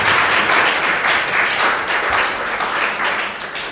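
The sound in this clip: An audience applauds during a French-language Sunday morning worship service in church. The clapping is lively and irregular, with sharp individual claps rising and falling in waves throughout.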